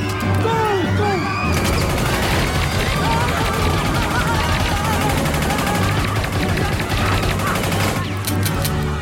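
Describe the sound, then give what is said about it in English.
Machine gun fire rattles in a dense, unbroken stream of rapid shots for about eight seconds, loud and continuous, then stops abruptly, followed by a few scattered shots. “Prepare to die, Powers! Use the machine gun!”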